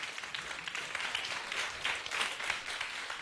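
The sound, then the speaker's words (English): Audience applause welcomes a returning university music student onto a stage in Hong Kong, a dense, steady patter of many hands clapping at once, holding an even, fairly soft level throughout without pause. “Please welcome Joshua Lang. 俾啲掌聲，梁啟新。”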